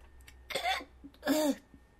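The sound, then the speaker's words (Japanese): Two short voiced hiccups come from a person, each a brief throaty gulp with a tonal edge, spaced under a second apart over faint background hiss. “しゃっくり。”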